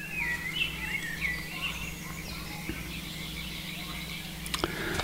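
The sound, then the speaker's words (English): Frogs croak in a continuous train of rapid low pulses, while birds chirp and whistle in brief high phrases above them, with a couple of sharp clicks near the end. “What do frogs do? Croaking. And I'm sharing some sounds.”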